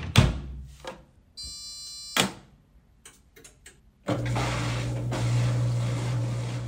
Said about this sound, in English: What you're hearing is the sound of my washing machine at home.